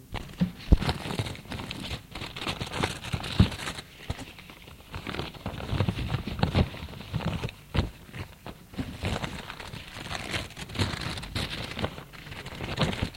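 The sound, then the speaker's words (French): Paper crinkling and tearing as letters from a pile of mail are opened and handled, with many short, uneven rustles and rips running continuously at a moderate level, with no talk. “Il commence à ouvrir les lettres.”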